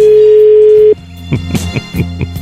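A telephone ringback tone sounds on an outgoing call: a single steady, mid-pitched tone holds for about a second, then cuts off and is followed by a few faint, scattered sounds.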